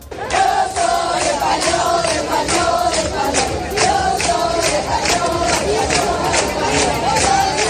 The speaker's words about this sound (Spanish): los cánticos han sido constantes, como este que estás escuchando